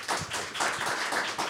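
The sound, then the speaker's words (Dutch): Sparse, light clapping from a few people applauding a footballer, quiet separate bursts of claps spread unevenly across a brief moment. “Maar ik een applaus vragen voor Amit, alsjeblieft.”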